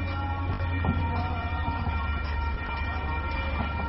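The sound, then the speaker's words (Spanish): Train passing on a street near a cathedral: a steady, loud rumble with a sustained tonal whine running through it. No one speaks. “Escuchamos al tren pasar.”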